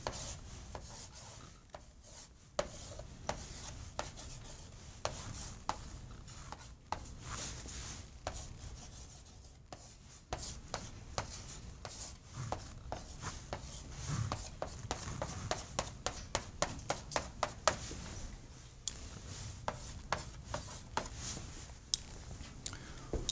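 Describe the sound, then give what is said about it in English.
A diagram of a body is drawn on a board, giving a long run of scratchy strokes, rubs and sharp little taps in an irregular rhythm, steady throughout with no talk. “So if we have a body, okay, let's draw a body that we'll see a lot of this semester.”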